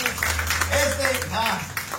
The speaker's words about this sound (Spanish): Cristo vive, dale una ofrenda de palmas fuertes a nuestro Dios.